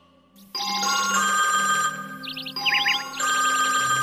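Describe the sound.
A phone rings in an electronic ringtone, a bright warbling trill that repeats in several bursts over a steady tonal backing, loud and clear with no talk over it.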